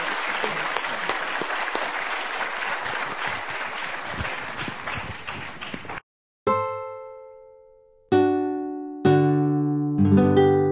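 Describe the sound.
An audience at a Stanford panel on the state of the legal profession applauds the panel with dense, steady clapping for about six seconds. A few ringing electronic chime tones follow, each decaying slowly.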